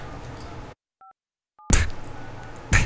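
Two brief telephone keypad dialing beeps, each a short two-note tone, sound in a quiet gap between louder, noisy passages.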